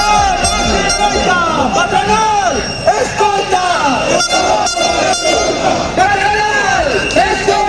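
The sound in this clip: A dense, loud crowd at a metalworkers' strike march through central Vigo, with blaring horn-like toots wavering in pitch over continuous voices and noise throughout.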